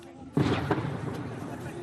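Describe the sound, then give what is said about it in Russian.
Gunfire in shelled Lysychansk while a crowd waits for drinking water: a sudden sharp bang, then a second crack and a rumbling tail, fairly faint. “Стрельба. Никто даже не пошевелился.”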